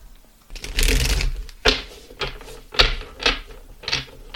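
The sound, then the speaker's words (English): A deck of cards is shuffled to pull a single card, starting with a long riffling rush and followed by several sharp, loud snaps and slaps of the cards, with no talk. “And before we start, I'd like to pull a card.”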